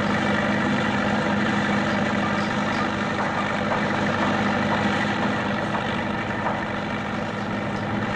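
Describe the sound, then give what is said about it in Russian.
A tractor drives onto factory grounds hauling a load of bricks. Its engine gives a loud, steady droning rumble that continues unbroken throughout. “За ним заезжает трактор с грузом кирпичей.”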